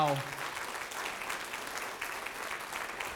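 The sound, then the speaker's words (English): Audience applause: continuous, even clapping from a crowd that holds steady at moderate loudness for about three seconds after a brief voice at the start. “And guys, could you give them maybe a round of applause”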